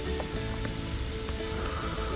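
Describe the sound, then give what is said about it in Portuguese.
Onion and garlic sizzle in oil in a pan, giving a steady, dense crackling hiss that stays at an even level throughout, with no talking. “vamos pegar aqui uma panela e dourar uma cebolazinha no óleo e um alhozinho aqui, para ter um sabor bem gostoso e acentuado.”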